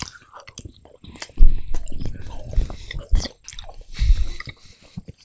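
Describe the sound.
Biting and chewing a milk chocolate bar with soft hazelnut filling: several squishy, slightly crunchy bites followed by wet, irregular chewing and mouth noises at moderate loudness.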